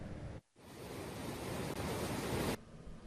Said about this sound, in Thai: ท่ามกลางสายน้ำที่ไหลผ่านเขื่อนเจ้าพระยานี่คือหนึ่งในจุดยุทธศาสตร์สำคัญของการบริหารจัดการน้ำในลุ่มน้ำเจ้าพระยา